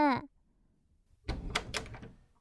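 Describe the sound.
A door being opened, heard as a burst of scraping and rattling noise lasting about a second. A brief voiced cry comes before it, followed by quiet.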